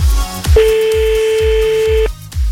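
Telephone tones as a number is dialed to call back: one loud, steady tone of about one and a half seconds over a series of short, rhythmic low pulses.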